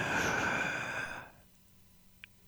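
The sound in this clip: One deep breath drawn in, a long breathy inhale lasting about a second, followed by near silence.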